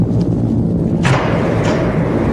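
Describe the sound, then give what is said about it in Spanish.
A torpedo launch: one sudden heavy thump with a hissing burst that rises out of a constant low rumble and then fades back into it. “Lanzamos el proyectil. ¡A toda velocidad! ¡Torpedo en el agua!”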